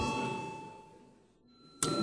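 A chairman's bell rings in parliament before a vote: a steady, ringing electric tone fades slowly, then a second loud, sharp strike sounds near the end.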